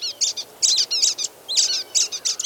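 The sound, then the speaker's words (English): Birds twittering in a longleaf pine forest in Florida, many quick high chirps and trills in short, bright bursts separated by brief pauses, loud and alone with no voices. “Twittering constantly, the birds probe for tiny insects or extract seeds from cones in the tree's upper”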